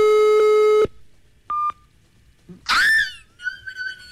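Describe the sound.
A telephone line tone sounds after a dialed call is rejected: a long, steady buzzing tone, then a single short, higher beep, followed by a few brief other sounds.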